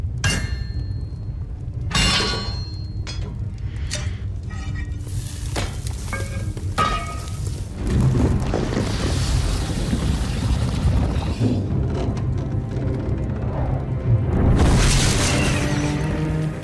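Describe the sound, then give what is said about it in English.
Deep booms and a sizzling hiss from a blacksmith forging two swords in the Game of Thrones forge scene, with something melting in a cauldron. Heavy thumps recur over a steady frying-like hiss, with no talk. “So, if you don't know what's going on here, there is a cauldron and something's being melted and two new swords are being forged. And there's a very super Buffy looking blacksmith.”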